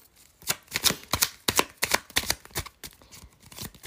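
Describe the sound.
Tarot cards being handled and shuffled, a quick irregular run of many crisp riffles, slaps and snaps, each short and sharp, with soft gaps between them and no talking.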